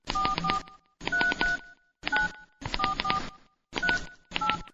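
A telephone number being dialled on a keypad, heard as six quick bursts of dual-pitched touch-tone beeps, each burst holding several short tones, clear and alone with brief gaps between groups.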